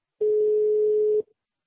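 A telephone line tone sounds while a call is placed: one steady, mid-pitched beep lasting about a second, clean and alone, followed by silence.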